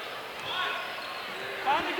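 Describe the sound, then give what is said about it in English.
A basketball is dribbled on court during a game, its bounces faint and hard to separate against steady background noise. “Still dribbling around that zone.”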